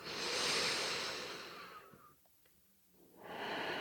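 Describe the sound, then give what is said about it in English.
A deep, refreshing breath during a guided meditation: one long, soft, airy breath that fades into near silence, then another breath begins, quiet and unhurried. “We're going to take a couple of nice, deep, refreshing breaths.”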